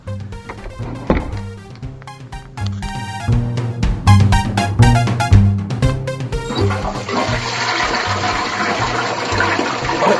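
An apartment toilet is flushed: after some tonal sounds at the start, a loud rushing gush of water swells up and settles into a steady, hissing roar of refilling for the remaining seconds.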